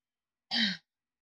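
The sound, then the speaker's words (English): A single short, harsh cough, one brief voiced burst of well under half a second, heard alone with silence before and after. “Hairball. That should feel better. You just coughed a bunch.”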